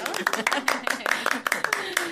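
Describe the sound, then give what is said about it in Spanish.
Many sharp hand claps ring out in a quick, fairly regular rhythm as a church audience applauds one of its members. Voices are audible alongside the clapping. “Un aplauso para José.”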